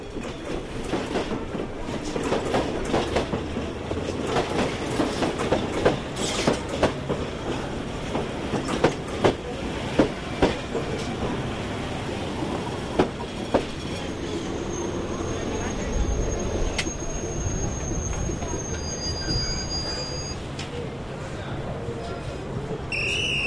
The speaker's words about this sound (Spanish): Ahí viene el tren.